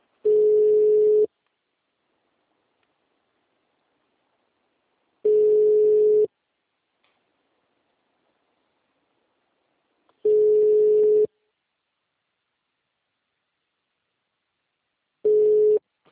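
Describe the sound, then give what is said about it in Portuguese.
Telephone tone after a dropped call: four steady mid-pitched beeps, each about a second long, separated by roughly four seconds of silence, with no voices. “Ela falou: calma aí um pouquinho, a ligação caiu, ela desligou, sei lá.”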